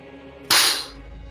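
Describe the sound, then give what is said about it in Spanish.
A shotgun fires a single loud, sharp blast with a brief decaying tail over a low steady hum. “Darius Taggart, apuntándote con la escopeta. Dispara.”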